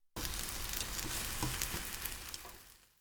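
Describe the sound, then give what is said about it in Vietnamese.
Egg white mixture sizzling as it fries in a pan while the second side cooks, a loud, dense, steady crackling hiss from start to finish with no talk. “Thì tiếp theo, cho phần trứng vào chảo trở lại để làm chín cái mặt còn lại.”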